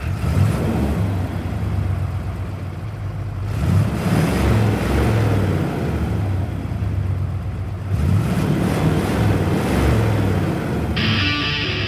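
A truck drives around the hilly West Side streets of Evansville, its engine and road noise rumbling steadily, with two surges where it speeds up.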